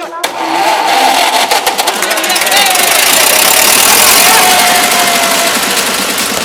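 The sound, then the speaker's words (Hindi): A vehicle engine is started. After a short crank it catches and keeps running, loud, steady and rumbling, to the end. “गाड़ी start कर।”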